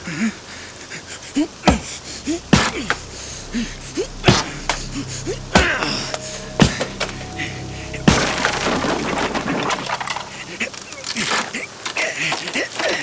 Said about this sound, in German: Öffne den Sarg.